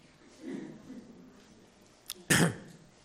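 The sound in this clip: A single sharp cough from a person with an irritated throat, brief and fairly loud, preceded by a small click and a low murmur in an otherwise quiet setting.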